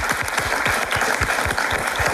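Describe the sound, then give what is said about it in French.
Audience applause at the Ciney town hall, a thick, continuous burst of clapping that stays at an even loudness throughout. “Je propose qu'on applaudisse tout le monde, hein, puisque tout le monde est réuni ici à cet hôtel de ville de Ciney.”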